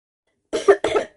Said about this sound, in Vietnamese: Lý Phúc Toàn không nhịn được, ho khan hai tiếng